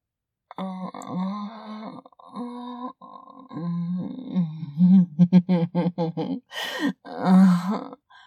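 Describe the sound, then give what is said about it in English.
Vocal groans: several drawn-out, voiced moans with wavering pitch, followed by a rapid run of short, strained vocal pulses and a final long groan, all fairly loud and without words. “Oh, that groan.”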